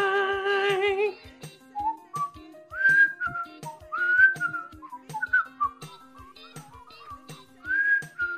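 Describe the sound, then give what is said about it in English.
A person whistling a sitcom theme melody, clear bright notes in a bouncy tune, with a short sung tone at the start and soft, regular ticks underneath. “Why would you start whistling when I'm doing it?”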